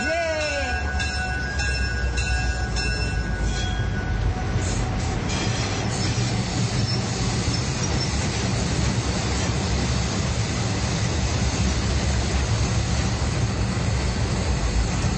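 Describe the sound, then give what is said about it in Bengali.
A train pulls out of a station with a loud, steady rumble and clatter of wheels, a brief high-pitched squeal riding over it at the start. “স্টেশনে থমকে থাকা ট্রেনটা চলা শুরু করলো গন্তব্যের দিকে।”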